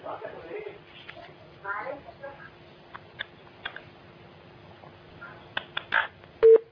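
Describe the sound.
A telephone busy tone follows a dropped call-in line. A faint, steady tone runs beneath murmured voices and ends in a short, louder burst.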